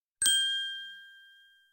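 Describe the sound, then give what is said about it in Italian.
One bright ding of an SMS text message notification strikes cleanly and rings out with a long, gradually fading metallic tail. It is fairly soft and heard alone. “Ti spedisco un SMS.”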